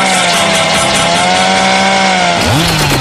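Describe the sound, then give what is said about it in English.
A chainsaw runs loudly and without a break, its buzzing engine whine holding one pitch. Near the end it briefly drops and climbs again as the engine is revved. “I love that sound. I love that sound. Chainsaw.”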